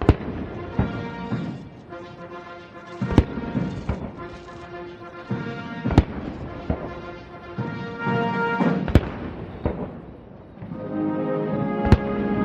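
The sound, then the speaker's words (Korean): Cannon shots of a 21-gun salute at a state welcome ceremony at the White House, several sharp, loud booms spaced a few seconds apart cutting through brass band music that plays throughout. “약 27분간 진행된 행사는 양국 국가 연주와 21발의 예포 발사, 미국 육해 공군과 해병대 의장대 사열 등의 순서로 진행됐습니다.”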